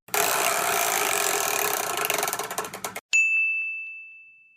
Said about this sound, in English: could you please spin the chore wheel, that big wheel that's sitting behind you?